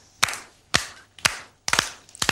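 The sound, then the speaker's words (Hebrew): Loud hand clapping for a children's song about quiet and noisy sounds: sharp, bright claps in evenly spaced bursts, some doubled or clustered, with quiet gaps between them and no voices. “מחיאות כפיים חזקות גם בבית.”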